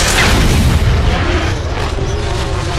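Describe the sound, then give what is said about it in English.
A spacecraft depressurization blast sound effect: a loud, dense, roaring burst that holds steady at full strength for the whole clip, with no talk. “Depressurization commencing now.”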